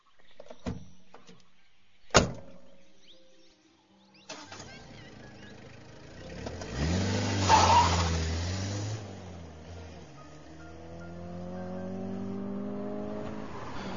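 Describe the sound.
A car engine roars as the car speeds away fast through a city. Two sharp knocks come first, then the engine revs hard and its note climbs in pitch as it accelerates.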